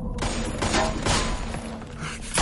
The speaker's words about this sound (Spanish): Mira a Ed y Peggy que saltan la barandilla les dispara.